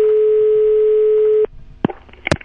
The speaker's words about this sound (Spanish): Un homenaje a Tierra Adentro y para eso vamos a hacer una llamada también bien adentro.